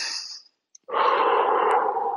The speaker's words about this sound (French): Donc je respire, je souffle, j'inspire